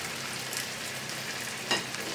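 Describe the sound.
Duck frying in its own fat in a pan makes a faint, steady sizzle with one brief crackling pop.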